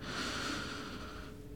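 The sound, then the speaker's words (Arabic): One deep, slow breath drawn in during a guided breathing exercise, soft and airy, lasting about a second and a half with no other sound. “واصل الشهيق بعمق وببطء، والزفير بهدوء. شهيق،”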